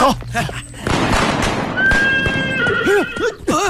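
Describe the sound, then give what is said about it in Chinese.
Horses whinny on a mountain road: a long, high neigh is followed by several short, wavering whinnies that rise and fall. The calls are loud over a busy, clattering background. “哎呀，马到了。”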